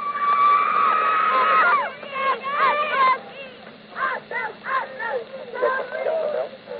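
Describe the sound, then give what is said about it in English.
Cheerleaders and fans celebrate a team's big victory with shrill, high-pitched group screaming held for about two seconds, then a series of excited whoops and shouted cheers in short bursts. “The cheerleaders will be there. The fans will be there. How about a little noise, girls? Come on.”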